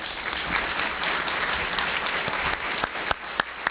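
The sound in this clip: Applause from a press club audience welcoming a speaker to the podium. Dense, steady clapping from many hands thins out at the end into a few separate, louder claps.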